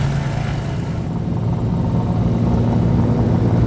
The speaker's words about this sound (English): In the air, she's our guide as we fly over the Canadian Rockies and five open-pit coal mines